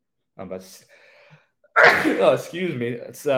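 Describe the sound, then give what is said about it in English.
A single loud, sharp sneeze bursts out after a few soft breathy sounds, and a man's voice resumes talking right after it. “my disgusting sneeze”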